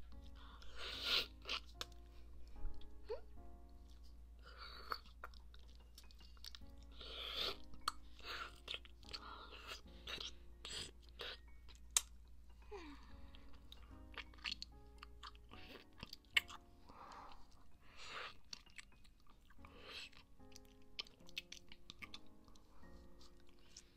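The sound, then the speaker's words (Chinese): Chewing and crunching while eating a milk-flavored ice pop: many irregular, quick crunchy bites and mouth sounds throughout, fairly faint. “这是冰棒。我们要赶紧把冰吃掉，不然就会融化，对不对？”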